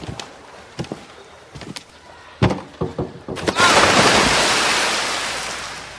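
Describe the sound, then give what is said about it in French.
Someone jumps from a high diving board into a pool, making a loud, broad rush of splashing water that fades slowly. A few sharp knocks come first. “Bon, regarde-moi sauter du grand plongeoir.”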